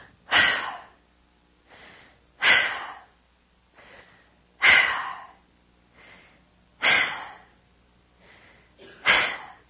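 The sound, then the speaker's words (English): Rapid, heavy breathing of a climber at high altitude, pausing between steps: loud, harsh breath bursts come about every two seconds, five strong ones alternating with softer, shorter breaths in a steady, labored rhythm with no talk. “At this elevation, you're taking about 5 to 10 breaths for every step. 5 to 10 breaths for every step. Looks like this.”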